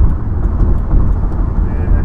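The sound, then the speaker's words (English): Car tyres rumble over a rough, poorly surfaced road, a loud, deep and continuous droning roar with uneven pulsing in its level. “Yeah, we got, almost sounds like a flat tire right now. That is the road right now.”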